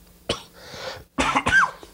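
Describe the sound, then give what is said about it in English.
A person coughs from an illness that has lingered for over a week. A short, sharp cough is followed by a louder, rougher burst of coughing. “his coughing is so annoying, dude. I've had this for over a fucking week now.”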